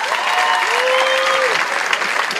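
Audience applause at a poetry reading: dense, steady clapping fills the whole stretch at an even level, with a faint tonal call briefly rising above it.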